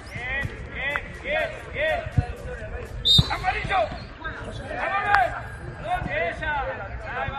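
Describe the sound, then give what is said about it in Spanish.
An Atlético de Madrid football training session at Cerro del Espino in Majadahonda, with ball thumps and sharp kicks among constant shouting and chatter from players. “Sonido del día de trabajo hoy en el Cerro del Espino de Majadahonda”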